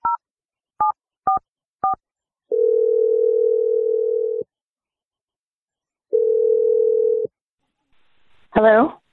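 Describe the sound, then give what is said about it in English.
Touch-tone dialing of a phone number: four short beeps, then two long steady ringing tones separated by silence, and finally a brief voice answering. “I'm going to dial Ellie's number right now and we're going to do our best.”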